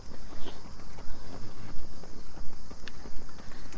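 Footsteps of people running and walking on a trail: steady, rhythmic footfalls repeat at a brisk, even pace throughout.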